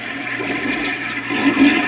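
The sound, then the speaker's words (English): A toilet being flushed again and again until it overflows, with water spilling everywhere. Steady rushing water fills the whole clip and swells louder toward the end, with no voices. “let me stop flushing the toilet. There's water everywhere.”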